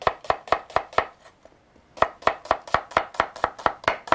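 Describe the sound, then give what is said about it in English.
Knife chopping an onion into thick slices on a cutting board: five crisp, evenly spaced chops, a brief pause, then a longer steady run of about ten more, with no talk over them. “Cut it in half. Long ways? We're going to slice it. I see. Okay. Okay. Not too thin. Thick, you know. Like this.”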